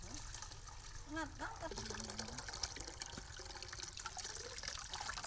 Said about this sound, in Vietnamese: Những giọt mật trong veo chảy vào ống lặng lẽ tích lại thành sinh kế cho cả gia đình.